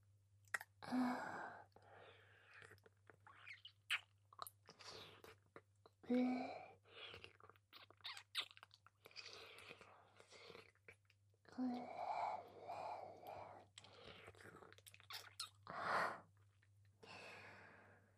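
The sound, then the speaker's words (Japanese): Soft, wet licking and mouth sounds move over the neck in an ASMR role-play, mixed with quiet breaths and sighs over a low, constant hum. “今から全身なめのサービスを始めさせていただきます。 まずは首筋から。”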